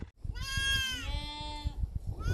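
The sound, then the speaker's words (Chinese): A grassland sheep bleats once in a long, loud, wavering call that holds for over a second and then breaks off. Softer rustling and shuffling sounds are heard before and after it. “草坡羊是草原上最具特色的羊种之一，更是羊群家族里名副其实的健身教练”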